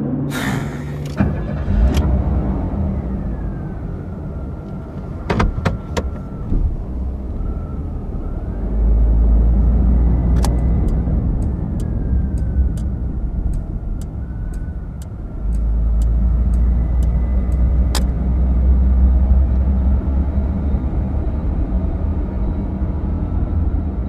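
A car drives along with a steady, loud, low engine and road rumble. A few sharp clicks and knocks come near the start, and a faint whine rises and falls above.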